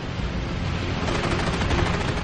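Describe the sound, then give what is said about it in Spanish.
WWII fighter planes fire their heavy machine guns at enemy transport ships near Guadalcanal. The loud, continuous roar of dense noise is shot through with rapid, rhythmic bursts that become more distinct in the second half. “A kilómetro y medio al norte, los cazas de Flatley hostigan a los transportes enemigos con sus potentes ametralladoras.”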